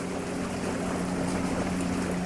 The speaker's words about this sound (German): Die neue Donau, die vor mir hin plätschert und fließt.